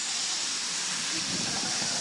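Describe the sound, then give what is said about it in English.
A steady, loud hiss like tinnitus in the ear fills the whole clip. The broad noise stays even from start to finish, with no talk over it. “you get a little thing called tinnitus, where you get this hiss or buzz in your ear. And you want to ask God a question, all you hear is,”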